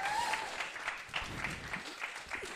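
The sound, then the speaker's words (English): An audience claps after a presentation in a short burst of dense, fairly even applause at moderate loudness. “let's give her a big round of applause.”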